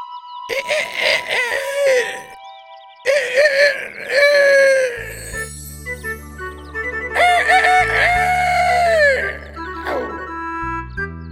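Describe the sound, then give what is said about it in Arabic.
A voice imitates a rooster's crow for a dog in a children's story, giving three long, wavering cock-a-doodle calls that rise and trail off, loud over a low sustained musical backing. “فذهب إلى الغابة ليكون وحيدا ويتمرن وحيدا، وهكذا حتى أتقن صيحة الديك، وراح يصيح في أرجاء الغابة”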